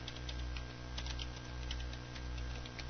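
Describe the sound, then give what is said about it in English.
Faint rapid clicking of a computer keyboard as a web address is typed, many light irregular keystrokes over a steady low hum, with no talk. “so I've typed that in, pressing enter now.”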